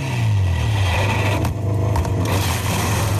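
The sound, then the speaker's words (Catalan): Metal grinding and scraping along asphalt as Pol Espargaró's Honda MotoGP bike slides after a crash: a loud, continuous harsh rasp over a steady low hum. “Aquest és el soroll de la Honda de Pol Espargaró arrossegant el metall després a l'asfalt.”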